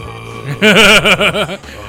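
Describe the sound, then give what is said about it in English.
A voice imitates a loud, drawn-out burp after Sprite was sipped too fast, a wobbly, pulsing tone that rises in after a short pause and holds for about a second before breaking off. “I was prepared to throw up, but I needed to burp really good. Yeah. So I just let it go, like, and, like, it just was, like, coming out”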